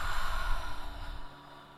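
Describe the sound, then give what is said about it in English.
A deep cleansing breath during a guided mindfulness exercise, a soft, breathy sigh-like exhale that rises briefly and then fades away into quiet. “five really big cleansing breaths. Big inhales through your nose into your belly, and a full exhale out of your mouth.”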